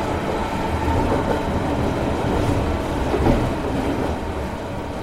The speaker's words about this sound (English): I step up into the royal blue 1920s Pullman carriage, and in an instant, I'm aboard the most opulent locomotive in the Americas.